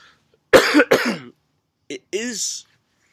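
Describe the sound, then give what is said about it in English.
Two quick, harsh coughs from a person bringing up phlegm while recovering from a flu-like illness, followed after a pause by a short voiced throat sound. “I'm still coughing. Like, I'm bringing up a lot of phlegm in my cough.”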